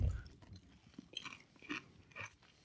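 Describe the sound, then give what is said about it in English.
Someone chews grilled cheese with tomato soup, making faint, crunchy, moist bites in a few irregular bursts, with no talking. “I'm cleansing my palate with the grilled cheese and tomato soup.”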